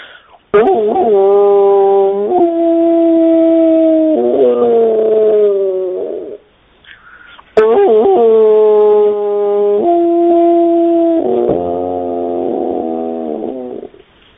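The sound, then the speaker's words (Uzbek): A human voice imitates a wolf howling with two long, sustained howls, each held on a steady tone before wavering and breaking at the end, separated by a brief pause. “Bo'ri degan bir hayvon bo'ladi. O'sha nima, bu bo'rini ovozi mana shunday bo'ladi.”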